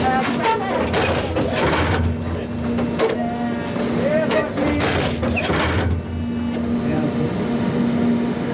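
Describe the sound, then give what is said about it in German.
An Italian turf-stitching vehicle inserts synthetic fibres into a stadium football pitch, making rhythmic mechanical clattering and whirring over a steady motor hum, with voices in the background. “So lange fährt das Stichfahrzeug der italienischen Spezialfirma 24 Stunden am Tag hin und her, bis alle Fasern gesetzt sind.”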